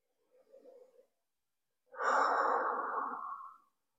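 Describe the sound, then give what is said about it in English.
A slow, unhurried breath: a short, soft intake, then after a pause a longer, louder airy exhale that gradually fades, heard alone without talking. “Take one unhurried breath where head and heart breathe as one.”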